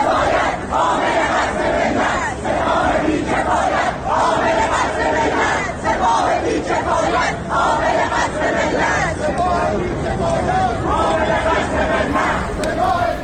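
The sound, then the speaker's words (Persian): Students chant slogans in unison in Tehran. A loud, dense crowd of voices repeats phrases in a steady rhythm throughout. “به صدای بخشی از صدای شعارهای دانشجویان در تهران گوش کنیم.”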